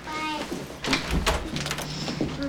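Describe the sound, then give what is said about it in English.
A front door being opened at home as someone with a bag heads out: a few short knocks and clatters from the handle and latch, heard over a soft, sustained tonal background. “Michael picks up a bag and opens the front door.”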